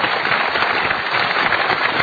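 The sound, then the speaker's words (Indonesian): An audience at a motivational talk bursts into loud applause: dense, sustained clapping that stays at an even volume throughout, with no voices standing out. “saya mohon tepuk tangan yang lebih meriah lagi untuk Indonesia Pusaka.”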